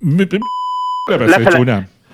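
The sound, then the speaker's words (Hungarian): A censor bleep covering a swear word: one flat, steady mid-pitched electronic tone about half a second long, set loud between two stretches of a man's speech. “Mi ez a sípolás? Én rakom bele, már csúnyán beszéltél.”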